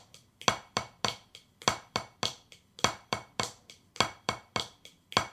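Drumsticks play a flam tap rudiment broken down one hand at a time: a steady run of many sharp, crisp strokes in a repeating pattern of louder and softer hits, with no talking.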